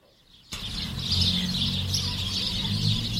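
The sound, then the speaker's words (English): Birds singing in a backyard in December, their repeated high chirps and tweets starting abruptly after a short quiet moment, then continuing over a steady low background noise at moderate level, with no talking. “And on the nature front, there's some birds in the backyard”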